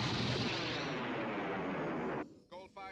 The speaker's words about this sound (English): I guess by watching this, the lasers inside the TIE fighters can swivel. Because you can see the lasers tracking.